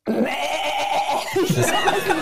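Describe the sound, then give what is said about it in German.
A human voice imitates a goat's bleat: one sustained, nasal, wavering cry lasting about two seconds, shaky and trembling throughout. “Kannst du Ziegen?”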